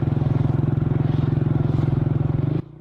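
A vehicle's engine putters in a fast, steady idle as it is parked under a tree, then cuts off abruptly near the end and leaves a faint low hum.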